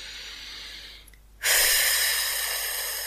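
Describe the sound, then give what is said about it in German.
Breathing in, then blowing out, as part of a stress-relief exercise: a faint, soft inhale, a short silence, then a strong, airy exhale that starts abruptly and stays loud and steady to the end. “einatmen und pusten. Noch einmal einatmen.”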